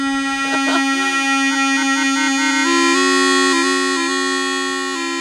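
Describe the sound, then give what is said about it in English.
A homemade bagpipe made from a dishwashing glove and fishing line drones loudly on its own. Its buzzing, reedy tone is rich in harmonics and shifts through a few stepped pitch changes after some breathy sputters at the start. “So this is the sound of the bagpipe.”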